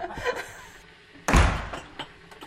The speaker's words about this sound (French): moi j'adore les bruits de porte. C'est toi qui ouvre là, je peux pas ouvrir.